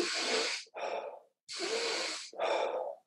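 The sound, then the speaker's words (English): Deliberate breathing, in through the nose and out through the mouth, in two full cycles: each airy inhale is followed by a longer, breathy exhale, with brief pauses between. “we'll go in through the nose and then we'll just go out through the mouth, but it's like this.”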